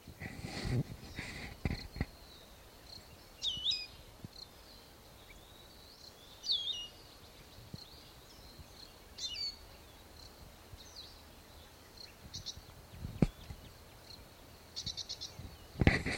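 A male bird calls from a lookout post in short, high, chirping bursts, repeated several times with pauses between them; the calls are fairly faint over a quiet background with a few soft low thumps.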